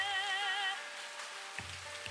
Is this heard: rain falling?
yes